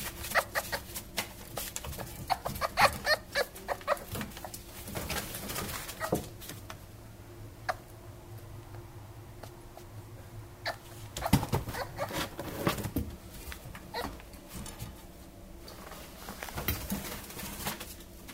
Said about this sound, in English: But the answer is that it's actually a fox.